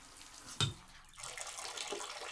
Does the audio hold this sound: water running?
yes